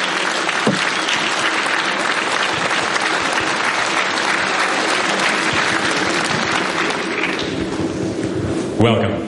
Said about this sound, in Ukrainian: І ще раз, будь ласка, аплодисменти.